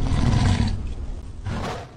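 A lion roar from a virtual gift in an online game: a loud, low, rumbling roar that eases off, then swells once more briefly before fading out.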